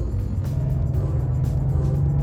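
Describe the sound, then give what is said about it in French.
Engine of a large vehicle driving fast, a steady, loud, low rumble with constant road noise that runs unbroken and without voices. “Dans les rues étroites d'Ourmani, la puissance du moteur de ce gros véhicule ne nous servira à rien. Au contraire, les petites voiturettes de nos poursuivants auront l'avantage.”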